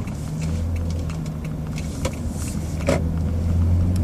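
A car drives through an open, sparsely built-up area, with a steady low engine hum and road rumble holding at an even level, plus a few faint clicks.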